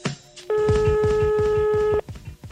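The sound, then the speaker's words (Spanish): A telephone is dialed and gives off one steady electronic tone lasting about a second and a half. Rhythmic music plays underneath. “voy a coger el teléfono, espérate. Voy a marcar, ¿eh?”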